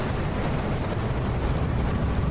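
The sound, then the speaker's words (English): Loud, continuous roaring rumble from a sound effect of exploding hangar bay doors in a tabletop game, a dense wall of noise that holds steady throughout with no voices. “And then all of a sudden, ba-boom! An enormous explosion as the hangar bay doors leading into this hangar explode.”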